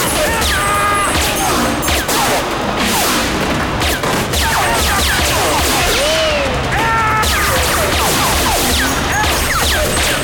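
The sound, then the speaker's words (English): Gunfire crackles through an indoor shootout as a thunderstorm rages outside: many sharp cracks, bangs and thuds in rapid bursts over a loud, dense wash of noise. “They bob and weave around the floor, ducking each other's bullets.”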